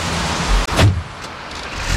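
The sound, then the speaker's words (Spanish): A diesel car engine starts in Copenhagen. A brief loud burst as it cranks and catches gives way to a steadier, quieter running sound that swells slightly near the end. “Mira, se arranca. Eso no es eléctrico. Tiene que ser un coche eléctrico. En Copenhague tiene que ser un coche eléctrico, hombre. Este coche es de gasoil, por lo menos.”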